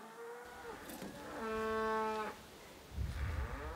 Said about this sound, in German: Die älteren Rinder kennen den Weg und gehen voraus.